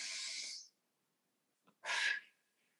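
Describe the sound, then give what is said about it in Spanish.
Breath drawn in through the nose by a group during a guided breathing exercise, heard as two loud, hissing bursts of airflow separated by a pause, the second with a faint whistling edge. “Vamos a inhalar, inhalar por la nariz.”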